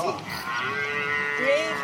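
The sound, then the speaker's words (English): A buffalo herd lows, with a couple of drawn-out, moaning calls rising over a steady murmur of background noise. “And watch this buffalo. He's going to chase him. But I want you to know the herd has not forgot about the little buffalo.”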